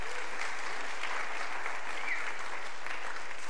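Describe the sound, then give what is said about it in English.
Applause from a church audience welcoming a guest speaker before a young adults retreat: dense, steady clapping that holds at an even level throughout, with no voices on top. “Hey, welcome to Will. Why don't we give him a hand, make him feel welcome.”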